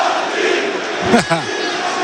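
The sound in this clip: A rugby crowd cheers and urges its team on with a continuous roar of massed voices; one louder shout rises above the din briefly near the middle.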